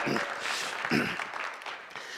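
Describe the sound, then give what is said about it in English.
A crowd cheers and applauds at Classic Calvary, a dense, steady wash of clapping and raised voices that holds for the whole moment without a break. “Okay, they're cheering in Classic Calvary right now.”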